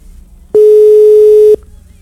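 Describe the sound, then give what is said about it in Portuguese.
A single steady ring tone from an unanswered phone call sounds once for about a second, a loud, pure mid-pitched beep between stretches of quiet. “Tá chamando. E aí? Atenda, pelo amor de Deus.”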